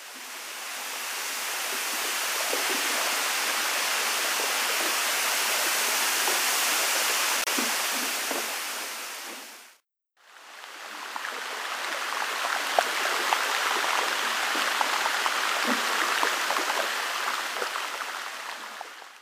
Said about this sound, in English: That was the cheery sound of melting glaciers. Air bubbles that are trapped in the glacial ice as the ice freezes pop when they melt